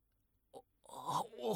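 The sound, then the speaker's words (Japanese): A person weeping: a short sharp sniff-like catch, then a wavering, sobbing voice that rises in strength toward the end. “泣くなよ。”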